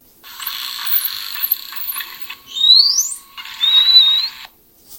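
Dolphin signature whistles: brief, high-pitched tonal calls with two prominent rising sweeps in the second half, clear and fairly loud over a steady faint hiss.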